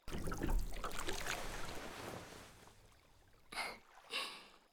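A boat rocks gently on water, with faint lapping and trickling through most of the stretch, then two brief soft swells near the end.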